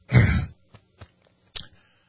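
Throat clearing: one loud, rasping burst followed by a few short, quieter catches of the throat, with no talk around it.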